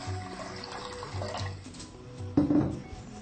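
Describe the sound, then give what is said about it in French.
Water pours into a pot before being boiled, a steady running splash that suddenly grows louder and fuller near the end. “Il faut d'abord verser un peu d'eau, hein. Il faut faire bouillir un peu d'eau.”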